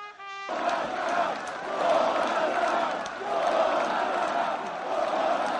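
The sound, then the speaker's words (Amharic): A large crowd of many thousands roars and applauds warmly after a presidential speech in Poland, a dense, sustained wash of cheering and clapping that swells and ebbs in waves. “በብዙ ሺዎች የሚቆጠረው አድማጭ ህዝብም የፕሬዝደንቱን ንግግር ሞቅ ባለ ጭብጨባ ተቀበለ።”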